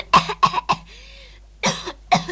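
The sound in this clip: Coughing from someone choking on dust: several harsh, loud coughs come in a quick cluster, then after a pause two more coughs follow.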